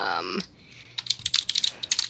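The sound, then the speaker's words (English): Typing on a computer keyboard, a quick burst of many clicky keystrokes in an uneven rhythm, following a brief moment of voice and a short pause. “It means like, if I type it out, you will probably know.”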